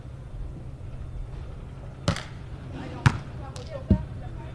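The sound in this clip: A volleyball serve by the Haikou City first team, heard as three sharp ball thuds spaced about a second apart over a low background hum.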